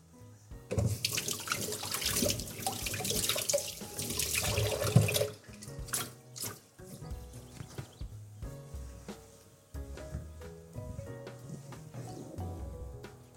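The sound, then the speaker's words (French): Two fennel bulbs are rinsed under a running kitchen tap. A loud, hissing rush of water fills the first few seconds, then softer, uneven splashing and trickling follow as the bulbs are turned in the stream. “je prends mes deux fenouilles, je les rince.”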